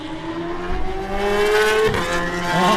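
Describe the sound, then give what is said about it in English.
A racing motorcycle engine, the number one machine at the start of a road race, revs loudly with a buzzing tone that climbs steadily in pitch, breaks off, then begins rising again. “John McGuinness, he rolls into position now on the number one machine”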